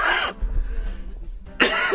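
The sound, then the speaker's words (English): A man coughs in two sharp, harsh bursts, one at the start and one at the end, with faint rough throat sounds between them. “I haven't coughed in 5 years, and all of a sudden I have to cough then. I'm sorry about that.”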